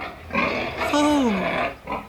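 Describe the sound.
Pig grunts from a sow with piglets on a muddy farm: a few rough, snorting bursts with a drawn-out squeal that falls in pitch in the middle.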